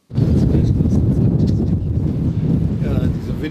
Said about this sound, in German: Es weht ordentlich, fast fliegen SPD-Fahne und Pavillon davon.